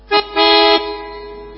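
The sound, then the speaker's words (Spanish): Car horn honking as a sound effect: two bright, harmonic toots, first a short blip, then a longer sustained blast. Both are loud and alone with no talk. “¿Cómo me molesta cuando en la radio ponen efectos sonoros con bocinas”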